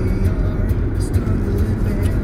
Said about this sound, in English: Well, yeah, we're driving.